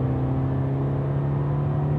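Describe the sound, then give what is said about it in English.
A car driving through a dark forest at night south of Nuremberg gives a steady, continuous low engine drone with a constant hum. The pitch and loudness barely change, and no voices are heard. “It is Friday evening and I'm driving to the Bighorn Ranch in Birnthon. It's in the very south of Nuremberg and now I'm passing through a dark forest.”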